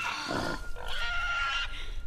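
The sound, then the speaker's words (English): A pig grunts and oinks without pause, a busy run of nasal, mid-pitched snorting calls with no voices over it. “Now the pig drops Carmen into a giant nest.”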